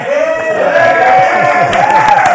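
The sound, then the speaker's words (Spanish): An audience cheers and claps after a political cartoon is shown, with loud, sustained crowd voices and a few sharp claps breaking through the steady noise. “Total, ese es mi cartón. Ok. ¡Aplausos!”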